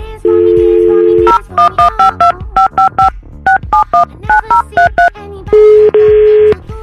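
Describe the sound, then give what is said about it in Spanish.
A telephone number is dialed on a keypad: a long steady dual tone, then a rapid run of many short beeping dialing tones in uneven groups, and a second long held tone to close. “Vamos a marcarle a tu esposa, se llama Cintia.”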